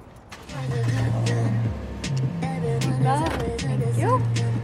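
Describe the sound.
A car drives along with a steady, low engine drone that stays fairly even in loudness throughout.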